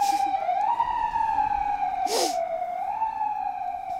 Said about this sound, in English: We are really in the city, believe it or not. It's the sound of car radios and horns and just the flow of traffic that is a reminder that you're in the city.